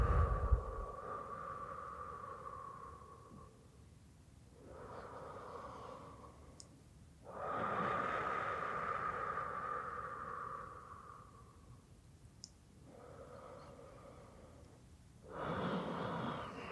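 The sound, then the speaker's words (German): Slow, deep breathing in and out, drawn through the belly and then the chest: a few long, quiet, airy breaths of several seconds each, separated by short pauses, with no talk. “alles gehen lassen, auch die letzte Luft rauslassen und wieder neu einatmen. In deinem Tempo.”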